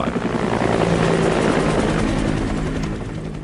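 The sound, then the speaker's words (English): Helicopters ferry evacuees out of Saigon to U.S. ships offshore in April 1975, their rotors making a loud, continuous, rapid thudding drone that fades slightly toward the end, with no voices. “Here again, the sound of helicopters ferrying people out of Saigon to U.S. ships offshore, April 29th,”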